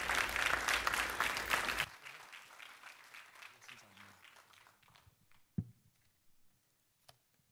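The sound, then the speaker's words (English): An audience applauds at a church mission conference to welcome missionary guests. Dense clapping lasts about two seconds, then cuts off sharply, leaving a few scattered faint knocks and taps. “I'd love it if you would put your hands together and give an incredible welcome to our missionary guests, Tim and Marquita Sutherland.”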